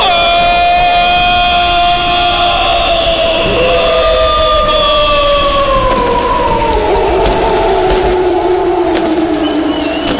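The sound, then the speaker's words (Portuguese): Brusque football supporters cheer and chant at a cup final, a loud, dense and unbroken crowd roar with sustained sung tones that slide downward through the second half. “e que festa faz, portanto, a torcida do Brusque. O foguetório, a fiel também, que lota o seu espaço no clima da decisão.”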